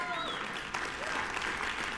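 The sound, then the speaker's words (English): Applause from an audience: steady, even clapping that fills the whole two seconds at moderate level, with a voice briefly audible over it. “This is worth applauding.”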